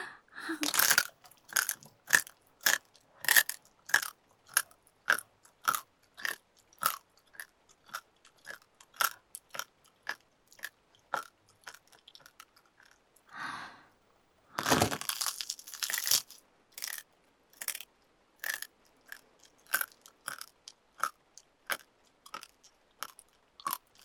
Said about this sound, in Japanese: まだお腹空いてて、骨食べるの止まんない。